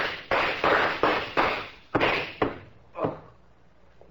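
Gunshots fired at a man, one hitting his elbow, land as a run of many sharp, cracking bangs in quick succession, each decaying briefly. The final shots are more spaced out and fainter. No voices are heard.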